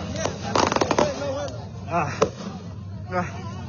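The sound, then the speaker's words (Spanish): Gunshots during a shooting in which a person was hit: a rapid burst of many sharp cracks early on, followed by a few isolated bangs, with people talking throughout. “Ya está disparando a San Julián. Estaba prácticamente a menos de un metro de nosotros.”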